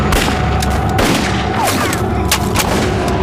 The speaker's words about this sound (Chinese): 看清老娘是谁在开枪！